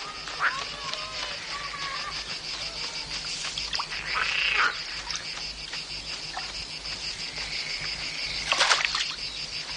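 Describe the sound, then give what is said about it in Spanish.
Crickets and other insects by a riverbank keep up a dense, high, continuous chirring, with a few brief louder calls rising above the steady drone. “Pasan por el margen de un río y ven a un niño cogiendo ranas.”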